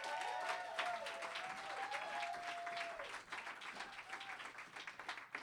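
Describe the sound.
Audience applause welcoming a reader to the stage at a live literary show at the M Bar in Hollywood: dense, steady clapping from a crowd that holds loud throughout and thins slightly toward the end.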